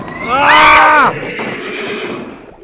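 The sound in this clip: A horse neighs loudly as a coach sets off. A single long whinny with wavering, quivering pitch breaks off, then steady lower background noise carries on and slowly fades.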